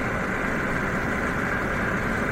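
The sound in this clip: A car engine drones while driving on a dark back road at night, a steady, even rumble holding constant without any voices.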